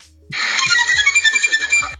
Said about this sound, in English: And when you get done, make sure that your ringtone sounds like this.